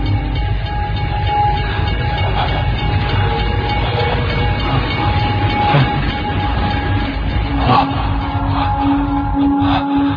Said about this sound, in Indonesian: Dan kereta api itu pun lewat di depan.